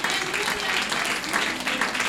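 Steady applause from a church audience during a worship service, dense continuous clapping at an even level with no break.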